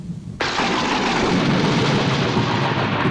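Thunder and rain from a thunderstorm: a sudden loud crack opens onto a dense, steady roar of heavy rain that continues unbroken to the end.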